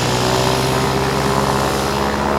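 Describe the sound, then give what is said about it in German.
Propeller aircraft engines roar at full speed before takeoff: a loud, dense, steady drone with a low throbbing hum that runs unbroken from start to finish. “Immer lauter wurde das Dröhnen der Motoren und die Propeller drehten sich mit Höchstgeschwindigkeit.”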